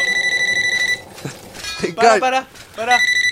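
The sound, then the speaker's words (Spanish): A telephone rings with a rapid, high electronic warbling tone. It stops while voices talk, then resumes near the end. “te está sonando el teléfono”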